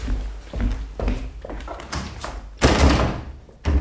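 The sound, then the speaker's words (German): A locked door being tried and rattled in a German radio drama: a run of uneven knocks, thuds and rattles with two heavier jolts near the end, and no voices. “Verdammt, die Tür ist verschlossen.”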